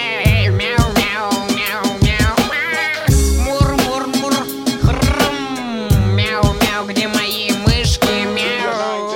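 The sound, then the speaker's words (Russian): A person imitates a cat meowing: many repeated, wavering, tonal meows in a steady stream for about nine seconds, loud and with no other talk. “Давай, кот, продолжай. Мяу-мяу-мяу-мяу,”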